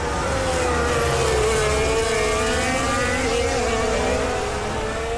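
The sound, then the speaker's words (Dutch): Onboard engine sound from Max Verstappen's Red Bull Formula 1 car during a race: a loud, continuous high-revving whine that wavers gently in pitch without any pause. “Juist, dit is het onboordgeluid vanaf de auto van Verstappen... die het duidelijk beter doet dan gisteren.”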